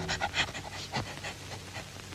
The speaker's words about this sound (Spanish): Con el hocico pegado a la tierra, huele que huele, viene la perra, siempre siguiendo la pieza mejor para su dueño, el cazador.